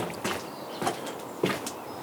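Footsteps walking across a garden: three faint, evenly spaced steps in a slow, unhurried rhythm over quiet background.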